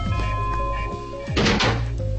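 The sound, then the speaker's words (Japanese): A door being opened gives a brief burst of scraping and a dull thunk, rising sharply over a steady tonal background and fading quickly. “すげえ開け方。ドアが開いた。”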